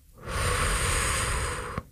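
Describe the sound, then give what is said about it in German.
A slow, deliberate exhale, one steady breathy rush of air lasting about one and a half seconds that stops abruptly, with no talk. “Also ich kann jetzt hier die Luft anhalten oder ich kann ganz bewusst ausatmen”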